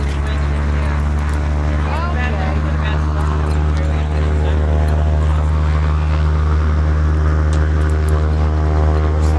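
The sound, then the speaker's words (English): Propeller airplane tethered on the ground, its engine holding a loud, steady droning hum with strong low harmonic tones. The drone runs unbroken throughout, with brief voices faintly heard over it. “Yeah, nice plane.”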